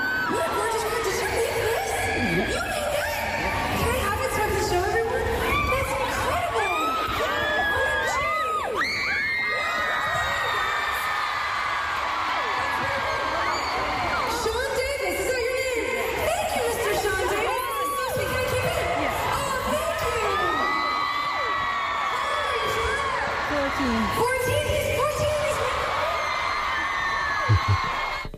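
A pop concert crowd at 3Arena cheers loudly and continuously, with high-pitched screams, whoops and shouts layered over one another for the whole stretch, without a break.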